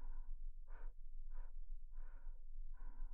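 Soft blowing of breath comes in five gentle, evenly spaced puffs, each a short, airy whoosh. The puffs are quiet and steady, with no voices.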